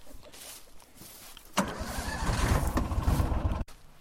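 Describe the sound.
A Gator utility vehicle is driven into an open meadow area, its engine rumble jumping up suddenly and holding a steady, gritty drone for about two seconds before cutting off abruptly, over faint background noise.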